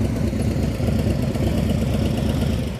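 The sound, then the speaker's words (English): A motorcycle engine runs at a steady idle, producing a continuous low, throbbing rumble with an even level and no voices. “somebody just got a 2026 Street Glide, so you can guess who's taking my hand-me-downs. There went my bike.”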